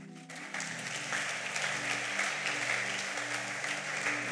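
A church audience applauds after a sermon with steady, sustained clapping. The applause swells slightly at the start and then holds at an even level throughout.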